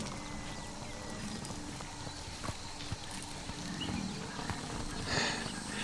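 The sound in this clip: The hooves of a herd of black, horned grass-eating herbivores march in a dense, continuous patter of overlapping thuds and clops, fairly faint and steady throughout, with no voices.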